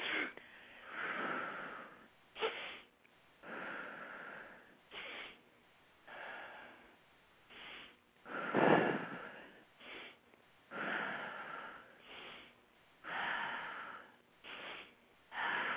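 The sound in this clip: Quick sniffing inhales alternating with longer, softer exhales during a breathing exercise, repeated in a steady rhythm over many breaths, fairly quiet and without talking.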